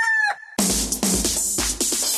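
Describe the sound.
A rooster crows at a cockfighting tournament in a palenque during an October festival in Guadalajara: a short harmonic call, then a loud, dense, noisy stretch broken by several sharp bursts.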